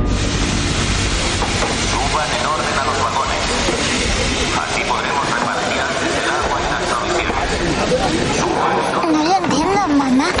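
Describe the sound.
A wartime deportation train of cattle wagons gives off a continuous heavy rumble and clatter that stays loud and steady throughout, with people talking over it.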